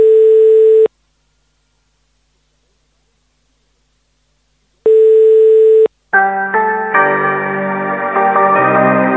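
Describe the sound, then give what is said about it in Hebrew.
Telephone ringing tones sound on a call to the prime minister's residence: two long, steady, clear electronic tones separated by a gap of silence, followed by a voice over music. “בואו נשמע איך הוא מחייג לבית ראש הממשלה,”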